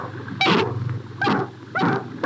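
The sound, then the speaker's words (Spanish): A playful dog barks a few times in short, loud, rough bursts with pauses between them, alone without talk. “el perro juguetón que siempre la acompañaba”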